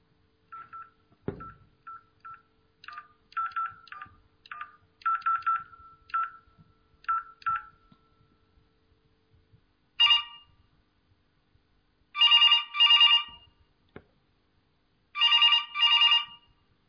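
A telephone is dialed with many quick keypad beeps in irregular groups. A pause follows, then a few loud bursts of electronic ringing, the last two each double-pulsed.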